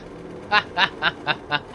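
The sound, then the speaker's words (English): A chicken squawks as it is run over in a video game: six short, rasping clucks at an even rhythm, bright and nasal. “Oh! I just ran over a chicken. Sorry, chicken.”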